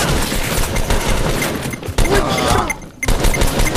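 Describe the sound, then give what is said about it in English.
Video game gunfire in rapid, loud bursts of overlapping shots, with brief gaps near the two- and three-second marks before firing resumes. “How does he still have this fucking gun?”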